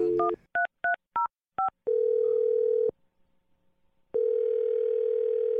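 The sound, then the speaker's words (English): Touch-tone phone dialing: a quick run of short, clean dual-tone beeps, followed by two long, steady, mid-pitched ringing tones separated by a silent pause. “We're going to dial the number.”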